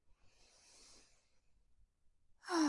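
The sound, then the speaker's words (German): A slow, deep breath in during a guided breathing meditation, heard as a soft, airy hiss lasting over a second. It is faint and alone, and a voice begins just after. “Und jetzt nochmal tief einatmen, bis in die obersten Lungenspitzen.”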